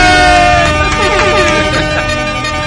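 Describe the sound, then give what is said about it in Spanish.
A loud air-horn sound effect blares through the whole clip, its steady tones wavering slightly, with voices mixed underneath. “Es que voy a poner bocina.”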